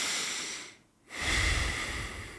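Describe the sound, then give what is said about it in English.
Breathing in and out through the nose during a guided breathing exercise: a loud, airy breath, a brief quiet gap near the middle, then another steady rush of breath with no talk. “you want to breathe in through your nose. Just your nose and then out through your nose.”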